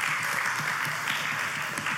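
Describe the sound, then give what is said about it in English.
Audience clapping at an evening gathering: a brief, even wash of many hands patting at a steady level with no voices. “Because I would have been singing otherwise, and you would not be clapping now.”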